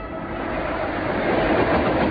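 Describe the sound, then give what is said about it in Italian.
A local passenger train on the Trapani–Palermo line runs along the tracks near Cinisi in 1978, heard as a steady, broad rumble that swells slightly toward the end with no distinct wheel clacks. “Il treno locale Trapani-Palermo sta attraversando la località Feudo, pochi chilometri da Cinisi.”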